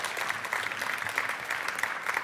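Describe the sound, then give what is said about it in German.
An audience applauds at the end of a talk at a congress, a steady, even wash of many hands clapping without pause. “Applaus, Applaus, Applaus, Applaus.”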